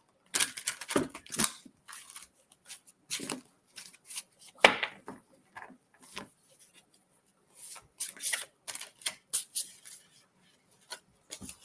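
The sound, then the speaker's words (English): A deck of tarot cards is shuffled by hand in irregular flurries of crisp, papery riffling and sliding, with brief pauses between the bursts. “Struggling with these cards. For some reason, I'm all thumbs.”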